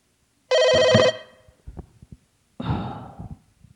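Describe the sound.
A telephone bell rings in one burst of about half a second, loud and steady. A few soft clicks and a breathy rustle follow, with no talk.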